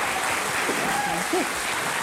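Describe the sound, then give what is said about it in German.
Applause from a quiz show audience: a dense, even patter of many hands clapping steadily all the way through, with a voice faintly audible underneath. “Dann kriegen Sie nämlich einen Applaus.”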